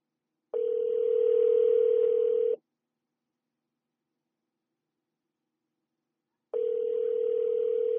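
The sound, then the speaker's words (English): A telephone ringing tone plays while a call is placed to a guest: two steady, humming tones, each two seconds long, separated by a long silence. “Let's go ahead and dial him in, patch him in, and get him on the line for the Center of the Ring podcast.”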